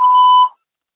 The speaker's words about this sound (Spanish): Usted puede dejar un mensaje después del tono.